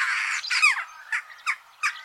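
Jackdaw calls: a burst of raspy, squawking chatter, then several short, sharp calls spaced a moment apart, moderately loud with no other sound.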